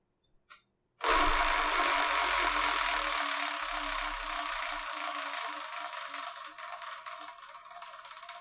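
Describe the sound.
A prize wheel spins: a brief click gives way to a sudden dense, loud rattling whir that slowly fades, with separate ticks becoming audible toward the end.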